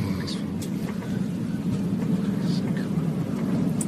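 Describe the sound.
A steady, broad roar of an airplane landing, played from a video of a bouncy touchdown that shakes a passenger. The rumble stays even throughout, with faint voices underneath.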